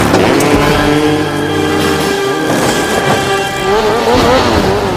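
A motorcycle engine revs hard as the bike accelerates up a shrine, giving a loud, continuous roar with layered harmonic whine that shifts in pitch toward the end.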